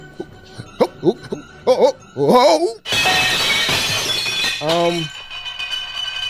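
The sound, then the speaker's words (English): Plates crashing during a juggling attempt: a loud, sustained burst of shattering crockery and clinks, with voices heard before and after the crash. “We're also good at juggling plates. Here I go.”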